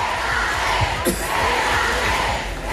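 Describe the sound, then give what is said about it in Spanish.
A stadium crowd chants for Alexia Putellas during the Barcelona women's team's Champions League title celebration, a sustained roar of many voices with a few louder shouts rising out of it. “muy comentado este momento de la celebración en el que el público pues corea Alexia, quédate”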